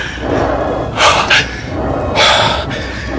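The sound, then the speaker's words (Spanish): Heavy gasping breaths of a person pinned under a knee after a struggle, a few loud, harsh rasps standing out against a constant background hiss. “Necesito aire, tomar aliento. Pero está jadeando.”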